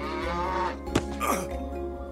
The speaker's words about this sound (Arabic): وما أن جلس جحا يحاول حلب البقرة حتى رفست وأبعدته عنها.